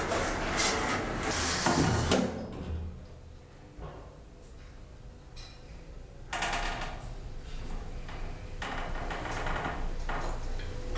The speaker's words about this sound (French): Fermeture des portes.